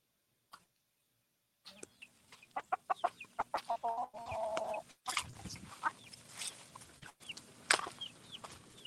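Chickens cluck in a flock with a rooster among them: after a faint opening tick, many short, sharp clucks come in a busy, uneven run, with a longer squawking stretch midway and louder bursts near the end.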